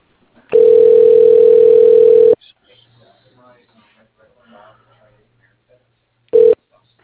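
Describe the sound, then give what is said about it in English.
A phone call is transferred to voicemail: a loud, steady mid-pitched tone lasts about two seconds, then near silence with faint background sounds, and a single short beep near the end. “Let me go ahead and just transfer to his voicemail.”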